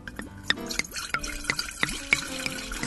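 Sake glugs into a large mug during a toast at a workplace drinking party, with a quick run of bubbly liquid gurgles and drips whose pitch tilts upward with each pulse, steady throughout and without talk.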